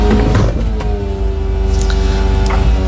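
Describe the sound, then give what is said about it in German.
An old, very small convertible's soft top opening: a steady electric motor hum and whine that runs throughout, with a few brief mechanical clicks along the way. “Und das war das Öffnen des Verdecks meines Cabrios.”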